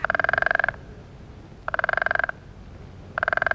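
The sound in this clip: A frog croaks from the reeds in three separate bursts of fast, pulsing rattling calls, each lasting well under a second, with quiet gaps between them and no other sound.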